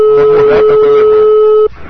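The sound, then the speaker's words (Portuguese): A steady, even telephone tone sounds as a call is placed, holding for under two seconds before cutting off abruptly, with other faint sounds beneath it. “É o Escola Show aqui, ligando agora pra Célia.”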